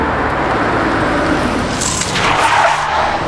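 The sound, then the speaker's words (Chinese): An orange sedan arriving, heard as a loud, continuous rush of car noise with a hissing tire skid, and no talk over it. “监控到橙色轿车，很快就会到达你那里。”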